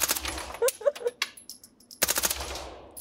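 A submachine gun fires two rapid full-auto bursts of sharp, closely spaced cracks separated by a short pause, the second burst trailing off into a fading tail.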